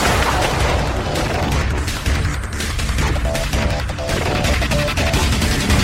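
Artillery rounds are fired in a loud, sustained barrage of booms and blasts that merge into a continuous roar, with no clearly separate shots.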